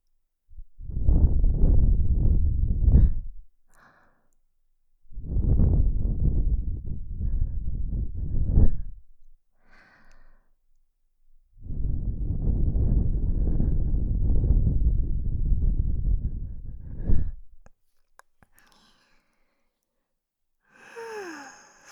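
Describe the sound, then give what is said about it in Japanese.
Breath blown softly into the ear in an ASMR session: three long, airy gusts of hissing breath, each lasting several seconds, separated by short quiet pauses. “よし、仕上げに息を吹きかけるね。”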